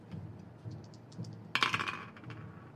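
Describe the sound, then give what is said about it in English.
Two dice being rolled: a few soft, faint clicks, then one short burst of rattling clatter partway through, fading quickly, with no talk. “Roll those two dice one more time.”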